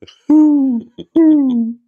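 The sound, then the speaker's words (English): A voice imitates a mourning dove's cooing call with two drawn-out, low hooting notes, each sliding slightly downward in pitch. Short breathy clicks come before and between the notes. “The morning doves are always like, woohoo.”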